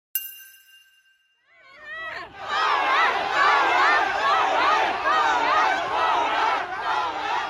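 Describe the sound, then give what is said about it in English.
Protesters in Shanghai on a Sunday: a crowd of many voices shouting and chanting together, swelling into a loud, sustained roar after a brief bright ding at the start. “That's the sound of protesters in Shanghai on Sunday.”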